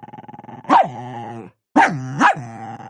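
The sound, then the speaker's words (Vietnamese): A dog growls fiercely, starting with a low, rhythmic pulsing snarl, then breaking into a few louder, harsher snarling bursts separated by a short silence. “Nó nhè răng trợn mắt, dữ tợn gầm gừ, dáng vẻ muốn lao về phía Vệ Liễm.”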